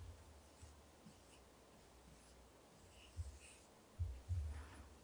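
A pen draws on paper, giving faint, soft scratching strokes with a few quiet gaps and a handful of slightly louder strokes toward the end.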